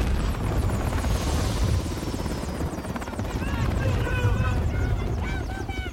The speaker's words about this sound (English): A helicopter flies over a group of armed men.